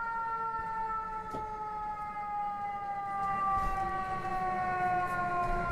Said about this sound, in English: New Yorkers know that's a fire engine.